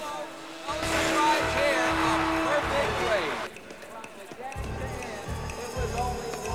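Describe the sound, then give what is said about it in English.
Motorcycles race in a dirt-jump event, their engines roaring and whining loudly at high revs for a few seconds before the sound abruptly drops to a quieter, rumbling stretch. “Motorcycles take off from soil jumps and fly through the air. The checkered flag is waved as one rider crosses the finish line.”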